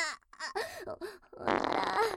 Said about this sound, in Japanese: おなら出ちゃう。汚い音で、おなら、お漏らししちゃう。